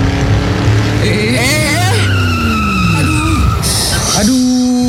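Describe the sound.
Tires screech loudly as a car speeds on a toll road, a continuous squeal whose shrill pitch wavers and bends up and down throughout.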